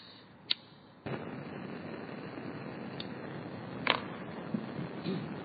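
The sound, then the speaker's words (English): Gas being lit for a fire-played instrument: a sharp click, then an abrupt onset of steady roaring hiss that continues throughout, broken by a few faint pops. “And I thought it would be great to get together an instrument where you had at least an octave of different notes played by fire in this way. Light the gas.”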